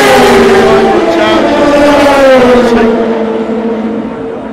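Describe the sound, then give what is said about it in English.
Toyota race cars passing on their final lap, a loud, sustained high engine whine that dips slightly in pitch and fades toward the end, with a voice talking over it. “As the Toyotas go through on their last lap, that's it.”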